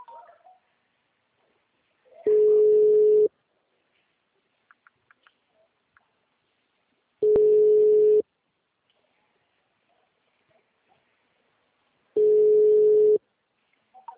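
Telephone ringback tone heard while calling someone: three steady beeps of about one second each, evenly spaced with long silent gaps, all at the same moderate pitch and loudness.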